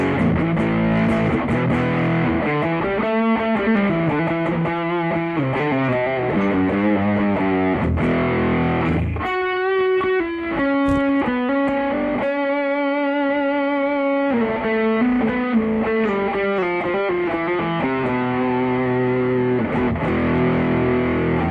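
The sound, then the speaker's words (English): Electric guitar played through a heavy distortion effect, with thick, saturated, buzzing chords and single notes in a continuous riff. It is loud and dense throughout, and there is no talking. “What happens is that you still get the distortion, you still get that hectic overdrive, distortion, not overdrive.”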